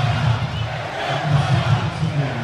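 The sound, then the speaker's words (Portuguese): Coritiba supporters chanting "vergonha" (shame) in the Couto Pereira stadium after a 2-0 Copa do Brasil defeat to Santos: a loud, continuous crowd sound with a low, rhythmic sung chant pulsing underneath. “Canta vergonha a torcida do Coxa.”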